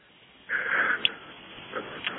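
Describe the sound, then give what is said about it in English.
Heavy breathing from a man, one long, loud rasping breath followed by a few fainter, wheezy breaths with small sniff-like catches. “Now, I'm smiling because he's breathing so hard.”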